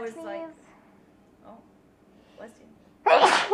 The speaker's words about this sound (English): oh, bless you. Bless you. I hate my sneezes. They're so fucking loud.